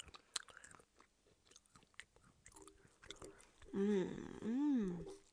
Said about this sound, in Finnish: Saanko tarjota sinulle karamellisoituja cashew-pähkinöitä? Ota siitä. Itsekin maistan.